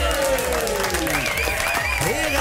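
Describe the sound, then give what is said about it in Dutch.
Audience applause and cheering greet guests as they come onto a television talk show, a dense, continuous wash of clapping with voices rising over it throughout. “Mag ik een applaus voor Jeroen, Demi, Richie, Ryan en Rondé?”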